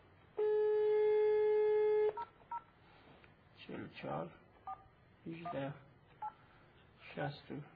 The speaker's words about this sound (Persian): حالا شماره رو من بگیرم.